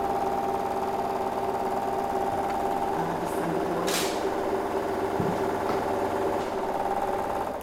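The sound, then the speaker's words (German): A honeycomb uncapping machine cuts the wax caps from both sides of a comb at once, a loud, continuous mechanical buzzing drone broken by a few brief, higher swishing sweeps. “schneiden das Wachs links und rechts gleichzeitig von der Wabe ab. Das Wachs fällt nach unten weg und die Wabe wird nach hinten rausgeschoben.”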